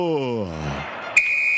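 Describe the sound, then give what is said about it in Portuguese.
A referee's whistle ending a Brazilian football match between Botafogo and Santos at the Nilton Santos stadium: a sharp, high, steady blast cuts in after someone speaks and holds to the end. “Quando nesse momento apita o árbitro,”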